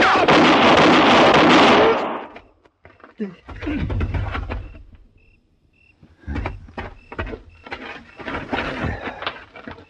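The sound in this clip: Gunfire erupts in a western drama shootout as a loud, harsh burst of shots opens the scene. Men then talk quietly amid faint scattered clicks and movement.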